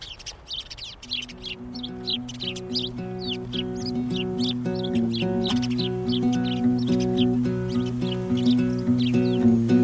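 Birds sing in many quick, high chirps and tweets over a steady instrumental tune with sustained notes, with no voices.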